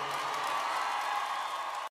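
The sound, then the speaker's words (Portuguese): A crowd gives a round of applause, a dense, steady wash of clapping for nearly two seconds that then cuts off abruptly. “Uma salva de palmas à minha mãe também.”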